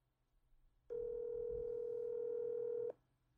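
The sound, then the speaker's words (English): A telephone dial tone sounds while a call is being placed, a single steady pitch holding for about two seconds. It starts and stops abruptly, with no talking over it. “I'm going to call one of my buddies who's a producer. See if he buys it.”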